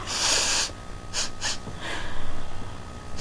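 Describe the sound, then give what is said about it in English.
Someone sniffs flower petals with a few sharp, breathy nasal inhalations, each a short hissing burst separated by brief pauses, with no talk. “Go ahead. Take a sniff there, fella.”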